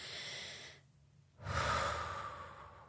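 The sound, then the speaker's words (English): A deep breath: a softer breath out, a short silent pause, then a loud, airy inhale lasting over a second. “Okay, breathe out. Now breathe in.”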